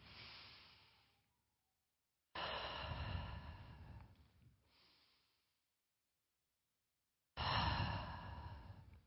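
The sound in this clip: Deep breaths taken slowly, heard as a few long, airy sighing inhales and exhales separated by stretches of silence, with no talking.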